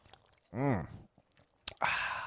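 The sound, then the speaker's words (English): A sip of a cherry blossom flavored drink, heard as a short, airy slurp right after a small click, preceded by a brief tonal hum; quiet and over in moments. “let me have a sip of all my beverages. I got the cherry blossom.”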